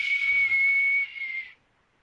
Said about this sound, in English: I like that whistle. That was really, really piercing.